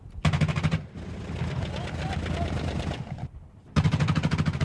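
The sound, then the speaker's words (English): Heavy barrage of incoming gunfire on an established front line, with dense bursts of rapid shots forming a loud, unbroken stretch of crackling fire that rises again sharply near the end. “There was a barrage of incoming fire.”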